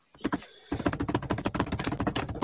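An envelope being opened produces a quick crisp rip followed by dense, rapid crinkly rustling as the paper is torn and pulled apart.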